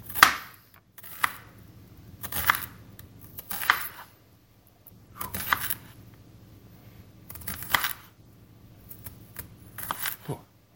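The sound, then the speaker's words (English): A knife chops ingredients on a board while sausage orzotto is prepared, in quiet clusters of sharp, crisp taps. Several short bursts are spaced roughly one to two seconds apart, with near silence between them. “if you like bigger pieces, you can leave it a little bigger, but it really blends in well if you if you chop it up.”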